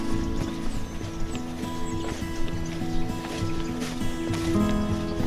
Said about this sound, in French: Par là maintenant sur ce petit chemin. Donc on va marcher par là.